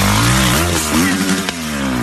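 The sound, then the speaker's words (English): A motorcycle engine roars in a played video of a rider attempting a backflip on grass, loud and steady with a wavering pitch and a sharp clack near the middle. “Man, he's doing a backflip and he falls off and the bike lands right on top of him.”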